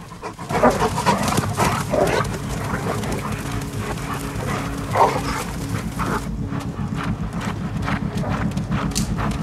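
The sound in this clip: Wolf pack chasing a deer down a slope through snowy trees: rapid, thudding, hoof-like footfalls run continuously, with canine yelps and barks mixed into a loud, dense rush of movement.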